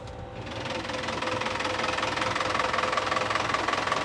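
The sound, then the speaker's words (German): A 100 hp four-cylinder Yanmar boat engine with a fixed propeller runs steadily, giving a dense, even rumble with a rapid knocking pulse. No voices are heard. “Was für eine Maschine ist das hier? Das ist ein 100 PS Vierzylinder Yanmar. Der schiebt das Ding mit einem festen Propeller richtig gut weg.”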